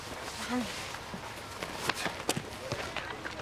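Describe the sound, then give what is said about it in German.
Footsteps running up and down a staircase, a quick, uneven run of many light thuds with a few sharper, louder impacts, and voices heard alongside. “Komm, einmal die Treppe rauf und wieder runter.”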